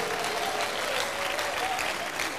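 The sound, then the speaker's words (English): Sustained, dense applause from a church audience, many hands clapping steadily and loudly throughout. “Give Jesus the biggest clap offering.”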